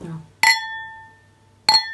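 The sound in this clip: Two bright clinks of glasses tapped together in a toast. Each is a sharp strike followed by a clear ringing tone that lingers, with the second coming just over a second after the first.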